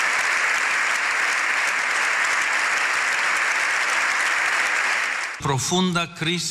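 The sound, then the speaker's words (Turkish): A standing audience in the Spanish parliament gives a long ovation after an address by the Pope. The clapping is dense, loud and steady for about five seconds, then a voice starts talking. “7 dakika ayakta alkışlandı.”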